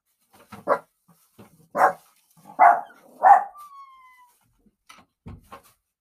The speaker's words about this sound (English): please excuse my dog.